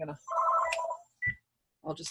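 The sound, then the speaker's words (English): A telephone rings in one clear electronic burst, with people talking just before and after it. “That's my my regular phone. Sorry,”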